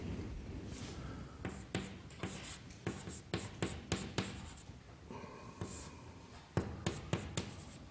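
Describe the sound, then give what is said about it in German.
Writing strokes during a math lecture while an equation is rewritten: many short, scratchy strokes in an uneven rhythm, fairly faint, with no talking. “Ich schreibe es mal ein bisschen anders.”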